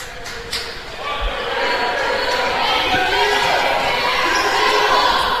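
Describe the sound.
A basketball is dribbled during a boys' high school game, giving a few dull bounces on the court that are partly buried under steady crowd noise.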